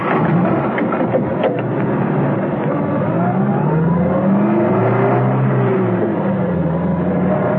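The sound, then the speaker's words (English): Engine of a taxi driving through narrow streets, a loud, continuous motor drone with its tone wavering up and down as the car moves, heard alone without talk. “A while later, while rounding a corner of the narrow streets, Arcos stopped the taxi.”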